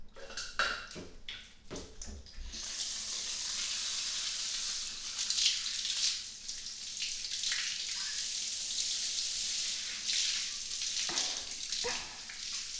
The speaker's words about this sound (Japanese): お背中流しますね。